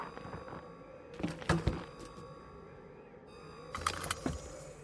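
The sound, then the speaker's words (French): Door thunks and rattles sound as people climb into a rover vehicle. Two separate bursts of clunks and jangling rise over a steady low hum. “Nous allons embarquer dans le rover.”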